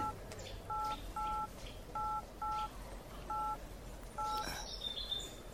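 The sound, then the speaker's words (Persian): Touch-tone keypad beeps sound as a telephone is dialed: six short, even dual-tone presses at a slightly irregular pace over steady background hiss, followed by a brief higher chirp. “همین الان زنگ میزنم”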